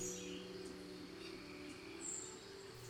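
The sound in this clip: Rainforest insects and birds, a faint, steady insect drone with a few thin, high bird chirps rising above it.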